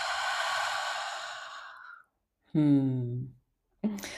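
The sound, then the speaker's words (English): A long, deep breath is drawn in through the nose as a steady airy hiss for about two seconds. After a short pause comes a brief voiced, sigh-like exhale, then another breath begins. “let's take a deep inhale in through the nose. And then part your lips inside out.”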